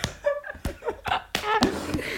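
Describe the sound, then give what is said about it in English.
A hand slaps a person a few times, sharp smacks scattered among brief talk. “But, guys, listen to me slapping him.”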